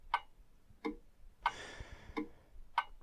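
A clock ticks five times, alternating a higher and a lower click in a tick-tock pattern at a slow, slightly uneven pace, with soft background noise between beats.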